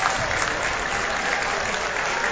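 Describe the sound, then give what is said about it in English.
Steady, dense applause from the crowd at a basketball game in Marblehead greets bench players coming off the court late in the game, a continuous wash of clapping with no clear breaks. “And the players coming off the bench getting a good hand from the crowd down below.”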